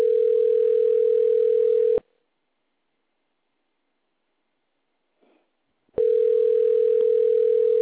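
A steady mid-pitched telephone tone on an answering machine line, holding for two seconds, then silent for about four seconds before resuming at the same pitch and loudness.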